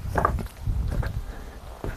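Footsteps of a man walking on a hiking trail through jagged rock in the Muttertal, a few irregular, gritty scuffs and crunches, fairly faint, with a pause before a final step.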